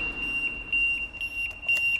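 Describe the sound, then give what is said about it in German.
An electronic security alarm sounds after unauthorized entry through a large door into an underground facility. It holds a steady, piercing high tone broken by repeated short beeps, loud and without voices. “Man hört auch schon den Alarm, weil es ja nicht zugangsberechtigt ist für niemanden.”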